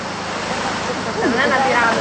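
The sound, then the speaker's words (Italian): Sea surf washes back along the shore in a steady, broad rushing hiss that swells slightly louder in the second half, with no distinct breaks between waves. “Perché pensavamo che fosse il mio respiro? No, è la risacca del mare.”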